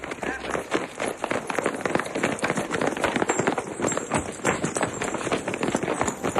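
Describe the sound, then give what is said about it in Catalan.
Footsteps of runners in Kenya in the dark before dawn: many quick, sharp taps of feet striking the ground in a rapid, uneven rhythm, continuous and fairly loud throughout. “Doncs et diria que el so, el tap-tap-tap, a les 4:30 de la matinada, 5 de la matinada, dels corredors de Kènia.”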